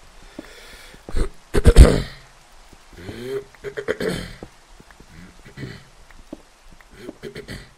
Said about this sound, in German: Bitte räuspern für Fanmanagement.